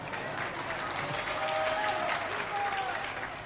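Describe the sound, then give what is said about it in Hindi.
Applause from an audience during a Hindi spiritual lecture: dense, steady clapping at an even level throughout. “बेचारे घर पे तो बोल नहीं सकते हैं, यहां पर छिप कर ताली बजा दिया।”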